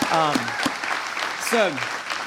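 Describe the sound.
An audience applauds to welcome guests with steady, dense clapping throughout, while a voice speaks over the applause.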